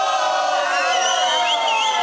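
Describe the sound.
An audience shouts a drawn-out boo together during a rehearsal: a dense chorus of many voices held at a steady, loud level for about two seconds.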